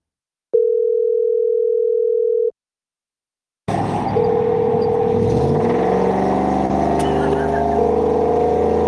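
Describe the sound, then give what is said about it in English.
A V8 engine running in a vehicle, heard over a phone call: a steady two-second dial tone, a pause, then a continuous low engine drone with a steady tonal hum. “is that like a V8 in there?”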